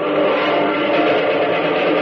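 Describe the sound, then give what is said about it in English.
A squadron of pursuit planes in flight gives off a loud, steady droning engine roar, unbroken and even in pitch from start to finish. “do those look like they are South American pursuit planes, a whole mess of them”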